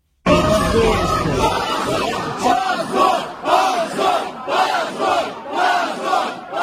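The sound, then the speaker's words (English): Supporters of the anti-war Yabloko party chant "shame" outside the court after a verdict banning the party from elections in Russia: loud crowd noise first, then a repeated rhythmic chant of many voices rising and falling in regular pulses. “That was the sound of the party's supporters chanting shame outside the court after that verdict was announced.”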